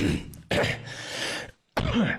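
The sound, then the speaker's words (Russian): Harsh, breathy coughing comes in a few bursts, with a brief silent pause before the final rough cough. “Извиняюсь, да, чуть закашлялся.”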